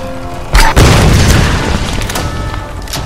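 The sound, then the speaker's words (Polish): Heavy explosions: a couple of loud, sharp booms in quick succession, followed by a long rumbling tail that slowly fades, with another faint thump near the end. “Boże, znowu te wybuchy.”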